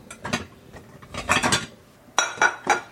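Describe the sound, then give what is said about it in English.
A 9-inch pie plate is taken out while making a lemon icebox pie, giving several clinks and clatters of dishes and cookware in uneven bursts, with a sharper group of knocks near the end. “And meanwhile, I need to get out my 9-inch pie plate.”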